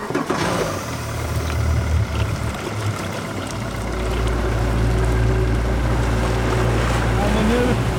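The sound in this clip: A motorboat heads out across Gullmarsfjorden toward a seaweed farm. Its low engine drone swells louder and steadier partway through, over washing water and wind noise.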